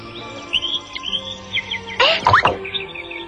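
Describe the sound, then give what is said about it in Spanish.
A cartoon dove of peace chirps in a few quick, high tweets and whistles. A brief louder warbling sweep comes near the middle, over a faint low hum. “¡Es la paloma de la paz!”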